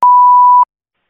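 An answering machine gives one steady, mid-pitched electronic beep just before a voicemail, holding an even tone for about half a second and then cutting off into silence.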